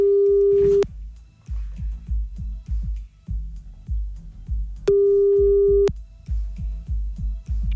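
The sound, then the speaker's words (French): Telephone ringback tones while calling a person back after being cut off: two long, steady beeps separated by several seconds, over a constant rhythmic thumping beat. “Eh ben oui, on est obligé, on rappelle.”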